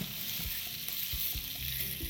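Ingredients stir-fry with soy sauce in a pan, a continuous bright sizzle with a few soft knocks of stirring underneath.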